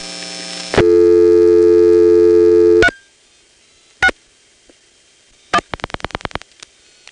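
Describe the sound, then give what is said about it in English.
Telephone exchange register sender on the 361 exchange in Manassas pulse-dialing digits: a loud steady buzzing tone cuts off, sharp isolated clicks follow, then a rapid train of clicks and a lone final click. “So if you call the 361 exchange in Manassas, the register sender here is going to dial 7-1.”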